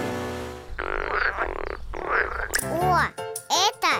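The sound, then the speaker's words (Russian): A frog croaks in a run of rasping, pulsed calls, several buzzy bursts with a rough, throaty texture, some with bending tones. “Лягушка.”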